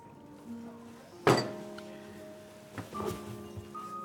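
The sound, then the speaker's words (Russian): A fist bangs down on a table in a single heavy, sharp thump, followed by a few softer knocks and light movement sounds. “потом наклоняется к столу и бьет по нему кулаком.”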